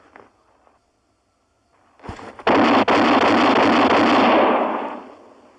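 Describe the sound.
Gunshots are fired from a loaded gun. A few sharp reports lead into a sustained, loud roaring burst that fades away over about a second.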